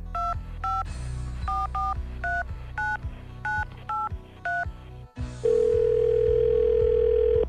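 Telephone keypad tones beep in a quick, uneven series of short two-note pitches, followed by a long, steady, loud line tone that runs to the end.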